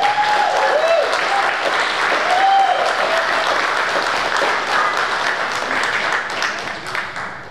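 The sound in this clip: Audience applause welcomes a speaker to the stage, a dense, steady clapping that holds at full strength for several seconds before easing slightly near the end.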